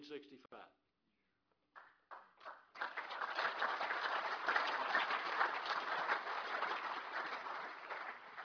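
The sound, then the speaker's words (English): Applause at an Alcoholics Anonymous gathering: a voice speaks briefly, then a dense, sustained wash of clapping from many hands swells up and fills the rest, easing slightly at the end. “Those applause are for Alcoholics Anonymous.”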